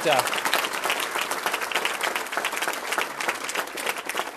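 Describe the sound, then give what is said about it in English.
An audience applauds family members on stage during an acceptance speech: dense, continuous clapping from many hands, loud and even from start to finish. “Yes, you can give them a round of applause.”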